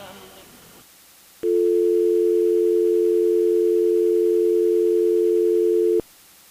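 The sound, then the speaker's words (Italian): Telephone dial tone on a faulty long-distance call, a single loud, steady hum that holds unchanged for about four and a half seconds before cutting off abruptly, preceded by faint background sound. “E vedo che continuiamo ad avere problemi con il telefono con la lunga distanza.”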